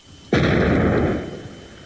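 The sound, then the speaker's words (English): Demolition explosion as UN weapons inspectors blow up a biological weapons factory: one sharp, loud blast followed by a deep roaring rumble that slowly fades over about a second and a half. “UN weapons inspectors blow up a biological weapons factory.”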